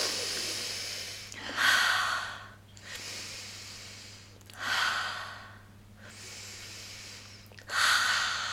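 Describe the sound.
Slow, deep breathing exercise with a few long, airy inhales and exhales in a steady rhythm. The strongest breaths swell and fade in regular cycles over a faint, steady low hum.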